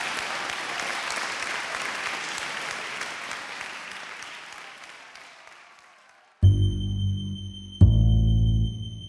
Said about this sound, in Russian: Зал взорвался аплодисментами.